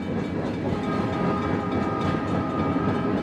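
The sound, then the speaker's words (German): Night-time rail noise from a train passing on a railway line near homes: a loud, steady rumble with rattling clatter throughout, no voices. “ist nächtlicher Schienenlärm, also Eisenbahnvorbeifahrten, die eben vor allem, wenn man nahe an der Bahnlinie wohnt, eben ein ziemlich ausgeprägtes Aufweckpotenzial haben.”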